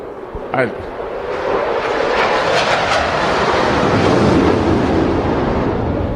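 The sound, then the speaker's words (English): An F-18 fighter jet roars overhead, swelling after about a second into a broad, loud rumble that holds steady to the end while a person speaks over it. “have you ever not heard that and looked up to see what it was? You provided a perfect background. I'm sure that's an F-18 out there.”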